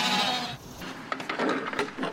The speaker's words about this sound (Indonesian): All right, sheep. You guys ready to come out? Morning, sheep.